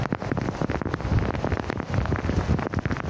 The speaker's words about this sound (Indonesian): Hujan guys, hujan. Hujan, hujan, hujan. Di SMA Tongko hujan eh.